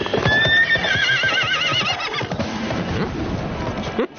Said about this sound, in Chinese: 任务都清楚了，大家骑马分头找房子，两小时后在南门集合。